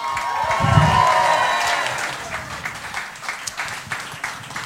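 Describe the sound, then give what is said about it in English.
An audience applauds and cheers as a poet is welcomed onto the stage at a live poetry show. A loud burst of cheering and clapping tapers into scattered, uneven claps. “So please put your hands together and help me welcome to the stage the one and only Wonky Wordsmith.”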